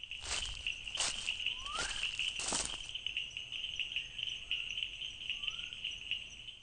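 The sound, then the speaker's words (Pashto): A male grass frog calls in a continuous, high, insect-like trill that holds steady throughout, with a few loud clicks early on and faint chirps. “خو په پای کې مې یو نر د واښو چونګښه پیدا کړه.”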